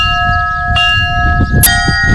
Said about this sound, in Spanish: Y así han sonado las campanas en Lerín, Pamplona, para que pudieran seguir el eclipse las personas con discapacidad visual.